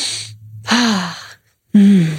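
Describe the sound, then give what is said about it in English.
Deep, audible breaths taken during a guided pause in a talk on body acceptance: two strong, breathy swells with a faint voiced tone, separated by a short silence, with a softer breath at the very start. “Should we take a breath?”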